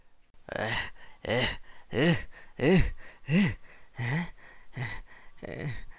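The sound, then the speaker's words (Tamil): Heavy, voiced panting from someone winded after jogging: a steady run of loud, breathy gasps, each rising and then falling in pitch. “என்னது இது, ரொம்ப மூச்சு வாங்குது. திடீர்னு ஓடுறது உடம்புக்கு ஒத்துக்கலையோ?”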